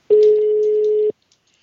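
A single steady, mid-pitched ringing tone of an outgoing telephone call lasts about one second, then cuts to silence.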